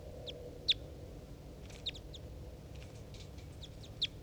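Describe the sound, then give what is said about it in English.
Three caged birds, a decoy and a wild bird, call to each other from 2 meters away: a few short, high, faint chirps stand out over a steady low background noise. “I'm recording the three birds as they interact.”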